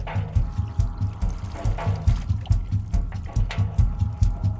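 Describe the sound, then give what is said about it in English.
Music built from Whirlpool washing machine sounds, with watery sloshing and clattering layered over a steady, repeating low thumping beat. “because that was the name of the Whirlpool machine. So the whole album is made of washing machines. You know, you're going to let us hear it, aren't you? Going to let you hear a bit of it.”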